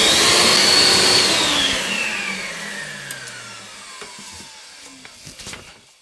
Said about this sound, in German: So, jetzt muss ich aber mal kurz saugen und wenn ich gesaugt habe, dann kann ich weiter putzen.